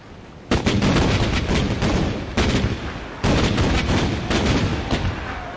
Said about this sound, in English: Our new captured fortress saluted with 21 guns.